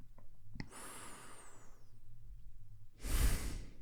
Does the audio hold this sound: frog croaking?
no